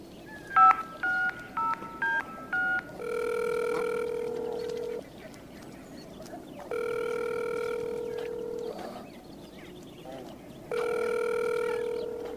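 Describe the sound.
A telephone is dialled with a quick run of several short touch-tone beeps at varying pitches, then three long, steady ringing tones with pauses between them as the call rings through.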